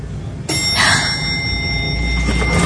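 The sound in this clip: A lift chime rings once as the elevator doors open: a bright, sudden ding whose clear tones ring on steadily over a constant background hum.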